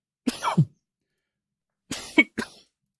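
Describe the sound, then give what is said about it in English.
Harsh coughing from someone choking on their own saliva: a short double burst of coughs, a pause, then a few more quick coughs, fairly soft and with no talk. “You know how I mentioned, like, drowning on my own saliva? Sometimes I do that.”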